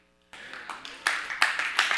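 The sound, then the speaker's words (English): A church audience breaks into applause during a sermon. Clapping starts suddenly after a brief quiet moment and builds in loudness through a few surges. “Don't clap unless you really mean it.”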